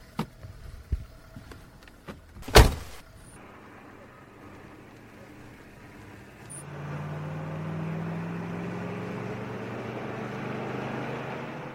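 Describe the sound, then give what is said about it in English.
A car driving fast, its low engine drone settling into a steady rumble in the second half. Before it come a few scattered knocks and one sharp click. “Oh, you needn't drive so fast, my man.”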